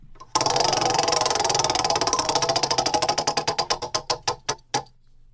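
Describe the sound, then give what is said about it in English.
A prize wheel spins and ticks: rapid, even clicking starts abruptly, then gradually slows, with the ticks spacing farther apart until a few last clicks and a stop. “We have to spin it at least once, right? Yeah. All right, cool. All right, here we go. I'm going to spin the wheel.”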